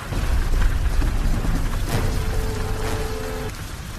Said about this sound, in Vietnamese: Tôn Chí nói, mưa lớn rồi. La Mặt Thần nhìn mưa lớn ùng ùng kéo đến, trời đã tối sầm.